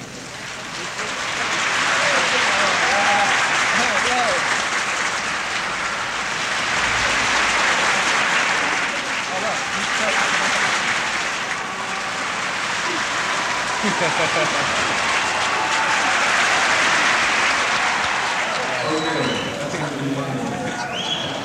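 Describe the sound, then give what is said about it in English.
Audience applause rolls around a room, a dense, steady clatter of many hands that swells and eases in broad waves as the clapping moves from one section to another. “you stop clapping and you start, and you can move the applause all the way around the room, thereby creating noise.”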